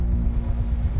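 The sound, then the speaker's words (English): A car engine runs with a steady, low, continuous rumble and no voices. “Can you hear that? That's the sound of your engine building up damaging deposits.”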